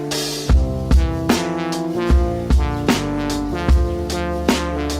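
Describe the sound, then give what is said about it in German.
A lo-fi music track with soft synth melodies plays: mellow sustained chords over a steady, unhurried beat with soft low kicks at regular intervals, and no voices. “Ist auf jeden Fall auch wieder geiler Lo-Fi-Sound, aber mit so, mit geilen soften Synth-Melodien.”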